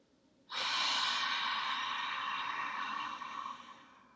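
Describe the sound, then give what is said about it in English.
A big exhale through the mouth during a guided breathing exercise: a soft, airy rush of breath that starts abruptly, holds for about three seconds and then tapers off quietly. “Inhaling through the nose. Nice big exhale through the mouth.”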